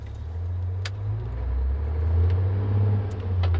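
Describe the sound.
A car drives off: a steady, low engine rumble that grows slightly louder as the vehicle pulls away, with no voices.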